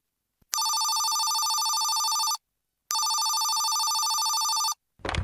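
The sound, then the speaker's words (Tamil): Telephone ringing with an incoming call: two long, steady, bright electronic rings, each lasting nearly two seconds and separated by a short pause, followed by a brief low rustle at the end. “செல்வின்னு யாரோ phone பண்ணுறாங்கம்மா”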